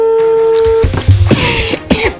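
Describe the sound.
A telephone dialing tone as a radio show calls a listener to award prize money, a steady electronic tone for under a second, then noisy, rough bursts.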